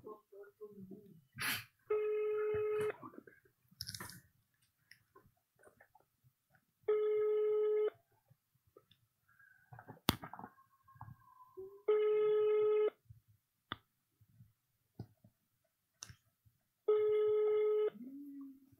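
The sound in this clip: A phone call rings out on speakerphone held near a microphone, with four evenly spaced buzzing ringback tones. People talk and make clattering noises in the gaps between the rings.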